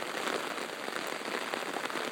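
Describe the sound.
Rain falling steadily, a dense, even hiss of drops striking surfaces with fine patter throughout and no pauses or other sounds.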